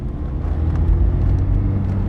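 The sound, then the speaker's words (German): A car drives on through Old Moshi with a steady, low engine rumble and road noise that stays even in loudness throughout, with no voices. “In Old Moshi verlassen wir Sablon Kivelos Hof und fahren weiter.”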